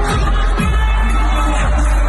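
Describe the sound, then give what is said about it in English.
Crowd cheering at Will Smith's surprise performance at the Coachella festival, a loud, dense and continuous roar from a large audience with a steady low rumble beneath it. “And the crowd's going crazy.”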